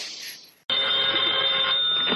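Telephone ringing for a phone call: a short, fading burst, a moment of silence, then a bright, steady electronic ring that holds loudly to the end.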